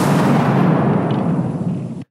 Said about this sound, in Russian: Рвануло как надо. Нас обдало жаром и осколками асфальта.